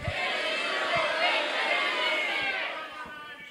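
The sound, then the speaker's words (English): A crowd of ham radio operators shouts their call signs all at once, many voices overlapping in a loud, continuous roar that holds steady for about three seconds before easing slightly. “On the count of three, let's hear your call signs on Ham Nation.”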